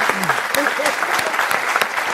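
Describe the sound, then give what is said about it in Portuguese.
An audience applauds a guest with dense, steady clapping that stays loud throughout, while a voice shows briefly over the start. “Uma salva de palmas pra você. Parabéns.”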